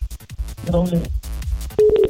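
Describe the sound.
A steady line tone sounds after a telephone call drops during a radio call-in. Choppy talk and other sounds come first, then a clear, sustained tone fills the final moments.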